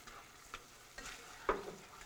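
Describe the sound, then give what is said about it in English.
Stirring baked beans with bacon and a finely minced chipotle pepper in a pot: a few faint, soft scraping strokes over a quiet background hiss. “Mix well and let heat through. When it comes to a boil, get a couple of good stirs, turn the heat off”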